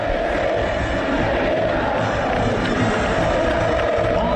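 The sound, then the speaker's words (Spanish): Belgrano football fans chant together in the stadium, a loud, steady mass of many voices that carries evenly through the whole stretch without pause. “Dale la B, canta el público de Belgrano.”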